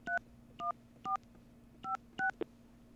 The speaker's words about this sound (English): Okay, now I'm going to hit the 9. That's better. Now I'm going to dial 1-844. And, I don't know, a bunch of numbers.